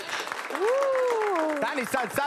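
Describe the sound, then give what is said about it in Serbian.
Applause breaks out in a tavern for the people gathered outside, a steady wash of clapping that keeps going under a prominent voice. “Dajte jedan aplauz za ove što su vani.”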